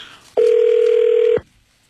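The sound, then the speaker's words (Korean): Ring tone as a telephone call is placed: one steady, mid-pitched electronic tone lasting about a second, loud and clean, with nothing else around it. “자, 64 보내주신 분 가운데 무작위로 저희가 전화를 드릴 거예요. 네, 전화기에 좀 신경 좀 써주십시오.”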